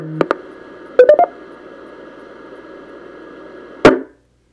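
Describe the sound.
Startup signal tones from a Yaesu radio sound over a steady radio hiss: a couple of quick beeps at the start, a rapid cluster of three a second later, and one final burst before the sound cuts off.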